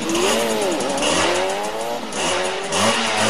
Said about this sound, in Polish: Wiem, że dla każdego ten dźwięk motocykla jest fajny w konkretnym takim wydaniu.